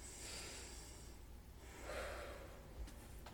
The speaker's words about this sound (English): Let's get ready for our story by taking a nice deep breath to prepare ourselves.